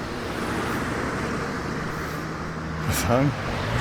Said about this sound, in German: Ja, es fahren viele Leute aus Werneck heraus.